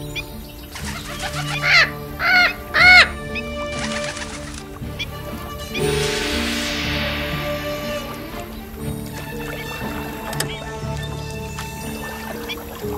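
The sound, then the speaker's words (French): A bird calls in three quick, bright, high bursts near the start, after which a softer, steady tonal background continues with no talking. “Hey, bonjour oiseau.”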